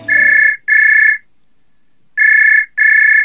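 An outgoing phone call gives a ringback tone: a steady mid-pitched electronic beep in two double pulses, four bursts in all, with a long silent gap between the pairs.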